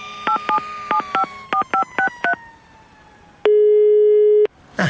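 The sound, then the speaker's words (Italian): A telephone number is dialed on a touch-tone phone as eight crisp beeps in quick pairs, followed after a short gap by one long, steady electronic tone. “chiamiamone uno a caso di questi 69 e chiedigli se sa chi è Lebowski”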